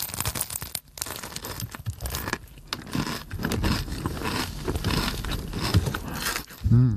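Flaky horn-shaped pastries crunching and crumbling onto wrapping paper, with a continuous crackling, crinkling rustle at moderate volume and no talk.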